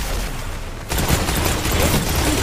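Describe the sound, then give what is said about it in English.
Gunfire in the video game Destiny 2, in a battle-zone match: a dense, loud burst of rapid shots starts about a second in and continues as an unbroken crackle to the end. “Fucking fire a gun, Jesus Christ! Just pull the fucking trigger!”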